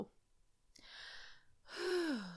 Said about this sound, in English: deep breath.